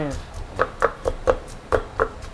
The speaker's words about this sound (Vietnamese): Mình sẽ bắt đầu bằng dễ ngò và tỏi trước. Dễ ngò và tỏi trước. Đó, thì mình sẽ đổ bằng cái chai. Ok. cho vừa phải thôi. Ok. Và mình sẽ bắt đầu mình giã thôi.